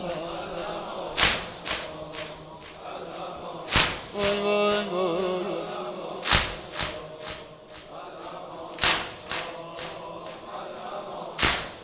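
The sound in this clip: Chest beating in a mourning ritual: five heavy, slapping strikes land at slow, even intervals, with a voice briefly heard between two of the blows.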